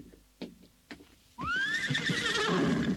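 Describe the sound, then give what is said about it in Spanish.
A horse in rocky country full of caves, first two soft hoof knocks, then a loud, shrill whinny that wavers and trails on to the end. “Eso es, caballito. Así me tienes que guiar.”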